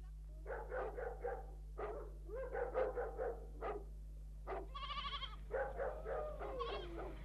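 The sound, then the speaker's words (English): Sheep bleat as a flock is brought in, with a ewe in a bad way. Many wavering, harmonic bleats come in quick runs, some higher and more strained, over a steady low hum. “He told me to bring the sheep over the side, and here they are.”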